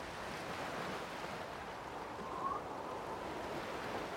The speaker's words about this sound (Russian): Послушайте воду, царица.